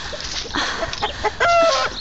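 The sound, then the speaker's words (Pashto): Chickens cluck in a courtyard where grain has been scattered for them: a few short clucks, then a louder drawn-out squawk, loud and with no talk over it. “چرګو ستړی مو کړم، نور مې مغزه مه خورئ، ورځئ هلته، لږ مې دانه درته اچولې، هغه وخورئ.”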